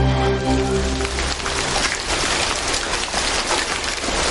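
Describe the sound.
Light rain falling outside an old church, a steady, dense hiss of drops that continues evenly throughout, with a faint low tonal hum fading out in the opening moment.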